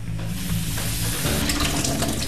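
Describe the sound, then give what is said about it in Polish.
Running tap water rinses raw shrimp in a kitchen sink as a continuous splashing rush. The texture of the flow shifts partway through. No one speaks. “Krewetki myjemy pod bieżącą wodą.”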